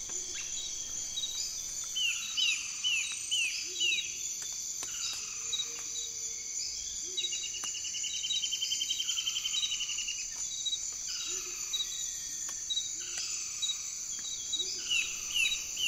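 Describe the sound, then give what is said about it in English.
An Amazon rainforest soundscape is thick with insects, led by dense, steady high cricket trilling. Occasional short chirps and descending calls rise over the continuous buzz. “I've noticed that the tropics are very loud. If we listen to the Amazon, for example.”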